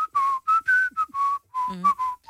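A person whistles a tune in a string of short, clear, bright notes with brief gaps between them, including a quick warbling turn near the end.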